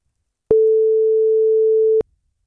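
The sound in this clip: Telephone ringback tone while calling a number: a single steady, mid-pitched tone lasting about a second and a half, sounding alone and then cutting off to silence.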